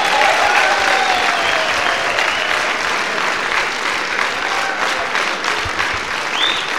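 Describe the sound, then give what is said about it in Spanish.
Steady applause from a crowd, a dense, loud wash of clapping that holds evenly from start to finish with no voices standing out. “¡Aplauso para los que se quedan!”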